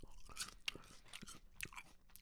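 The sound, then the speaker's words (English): Someone bites into and chews a crunchy green apple, giving several sharp, crisp crunches over softer wet chewing, all quiet and with no talking. “that's a good green apple”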